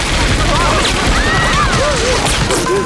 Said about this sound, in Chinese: 开枪！